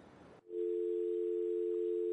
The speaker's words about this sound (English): I think we've lost the caller. Hello? I think the caller dropped.